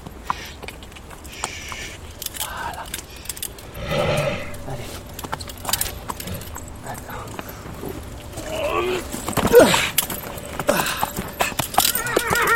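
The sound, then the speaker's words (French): A horse moves about with clopping hoofbeats and lets out a neigh, the hooves thudding irregularly while a voice speaks over the animal sounds. “Oh, ça fait du bien. Allez, viens là, mon cheval. Allez, viens.”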